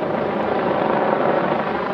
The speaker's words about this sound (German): Die herbeigerufene Polizei nimmt die Fahndung auf, unter anderem mit einem Hubschrauber.